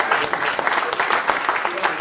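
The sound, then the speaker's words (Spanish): Applause from a church audience during a Spanish-language sermon: dense, fairly loud clapping with many overlapping claps, keeping an even, busy texture throughout. “Dale un aplauso a Cristo, que Él se lo merece.”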